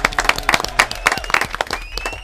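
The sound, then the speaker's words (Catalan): Brief applause at a quiz game, with a small group clapping in quick, irregular bursts for a couple of seconds. “Molt bé, un aplaudiment.”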